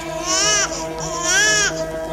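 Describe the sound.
A teething baby cries in two drawn-out, high-pitched wails with a short break between them. Each wail sags slightly in pitch at its end, over a faint steady hum.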